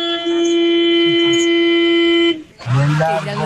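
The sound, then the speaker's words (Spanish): A car horn gives one long, loud, steady honk that holds for about two seconds before cutting off, and a person starts talking right after it. “Es un pito que suena fuerte, un pito oiga largo. Este pito.”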